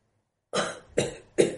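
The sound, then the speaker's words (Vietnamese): A long cough breaking into three rasping bursts, each sharp at the start and trailing off, fairly faint and heard alone with no talk. “ho dài tiếng, nói tiếp.”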